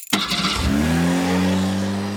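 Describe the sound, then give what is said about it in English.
A car engine is revved hard as someone hits the gas. The roar starts abruptly and then holds a loud, steady, buzzing drone with no talk. “No, it's I haven't made it yet, but it's going to be someone like hitting the gas.”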